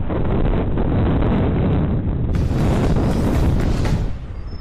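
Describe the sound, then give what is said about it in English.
Strong storm wind, with gusts reported up to 75 miles an hour, buffets the microphone in a loud, continuous roar. The rush holds steady throughout and eases slightly at the very end. “wind, boy. That's the umbrella breaker.”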